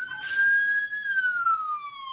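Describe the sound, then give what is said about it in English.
An ambulance siren sounds as one sustained wailing tone that holds steady, then slowly slides lower toward the end. It plays alone with no talk over it. “I guess you have a cop car in the background. It was an ambulance.”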